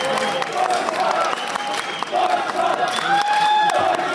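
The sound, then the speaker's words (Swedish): German fans cheer Germany's 1-0 goal in the World Cup final, a loud crowd roar with clapping and whoops that stays strong throughout while a commentator talks over it. “Till den tillresta tyska publikens stora glädje.”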